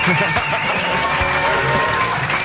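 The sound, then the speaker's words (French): A studio audience applauds and cheers at a show, a dense, loud, unbroken wash of clapping mixed with shouts and voices that holds steady throughout. “Un public déchaîné donc pour cette émission”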